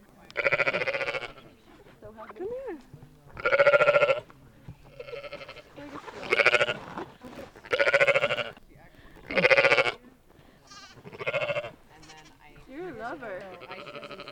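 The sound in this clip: Baby lambs bleating at a farm in Livingston Manor, New York, during a springtime lamb gathering: repeated loud, wavering bleats in short bursts, one after another.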